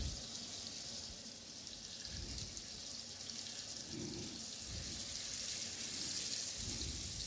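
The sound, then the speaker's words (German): Fish sizzles in a pan while being seared for a Bengali fish curry, a quiet, steady hiss running throughout with a few soft low bumps. “So, jetzt brate ich den Fisch an.”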